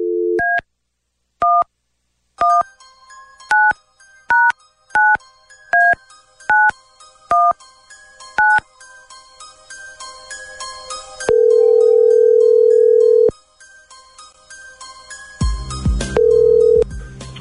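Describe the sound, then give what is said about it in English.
A telephone number is dialled at random for an on-air call: a run of short, evenly spaced touch-tone key beeps, then a long, steady ringback tone, a pause, and a second ringback tone over some noise. “Okay, here we go. Dialing at random.”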